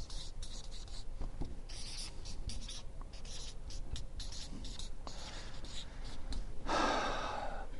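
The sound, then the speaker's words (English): Handwriting as someone jots down a note: faint, scratchy pen strokes repeat in quick, uneven bursts across the whole stretch, with no talking. “I should write that down.”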